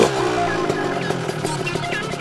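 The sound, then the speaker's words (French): A GT touring motorcycle sets off on a test ride from Saint-Gall toward Germany, producing a steady, harmonic engine drone. “Alors pour moi, départ à l'essai de cette moto, départ de Saint-Gall, direction l'Allemagne, afin de pouvoir exploiter cette GT sur des portions de route sans limitation de vitesse.”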